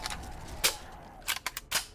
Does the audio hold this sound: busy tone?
no